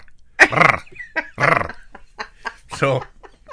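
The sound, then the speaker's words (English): A voice imitates the noise of a small dog being squeezed in someone's hand and played like a bagpipe: a few strained, squawking vocal bursts with gobble-like warbles, separated by short gaps. “He would pick the dog up in his hand, and he'd play it sort of like a bagpipe a little bit. And for some reason, so he'd squeeze it. When he squeezed it off just slightly, the dog go,”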